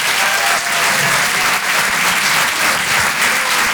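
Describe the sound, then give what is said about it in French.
Audience applause at a live comedy club show in a Paris theatre: dense, steady clapping that fills the whole clip at an even loudness without a break. “Faites du bruit, s'il vous plaît, pour Hugo Pêcheur.”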